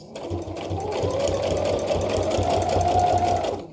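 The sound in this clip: A sewing machine stitches back and forth with a universal needle. The loud, steady mechanical whir carries a rapid rhythmic clatter and runs without a break for almost four seconds.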